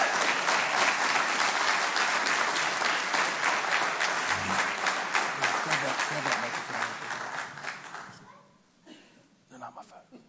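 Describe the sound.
Audience applause welcomes a couple coming up at Hope Community Church, a dense, steady clapping that holds strongly for about eight seconds before thinning out and tapering off near the end.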